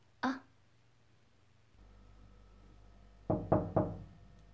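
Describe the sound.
Knocking on a bedroom door: one loud knock, a pause, then three quick raps in a row over a low steady hum.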